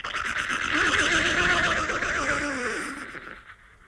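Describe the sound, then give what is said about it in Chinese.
A horse arriving at a gallop between two armies lets out a long, wavering whinny that stays loud for about three seconds, then fades away. “有匹马就像飞起来一样，眨眼间来到两军阵。”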